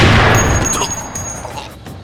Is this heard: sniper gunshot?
yes